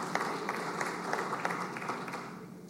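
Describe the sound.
Steady applause from the members of a state senate chamber welcomes a guest, a soft, even patter of many hands clapping throughout without a break.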